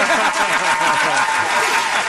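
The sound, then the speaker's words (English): Loud audience applause at Baja during a live sports talk show, dense clapping mixed with chuckles and scattered voices from the crowd. “What a reaction we got from the crowd here at Baja.”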